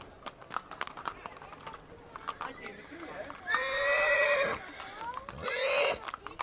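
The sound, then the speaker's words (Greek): A calm horse being mounted for a ride whinnies twice in long, loud, wavering neighs over a running patter of clip-clopping hooves, while people talk nearby. “Με το αλογάκι. Ωραίο. Δεν πιστεύω, είναι ήρεμο, ε.”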